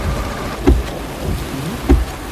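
Steady rain hisses and patters throughout, broken by two brief, low, muffled rumbles of thunder spaced about a second apart.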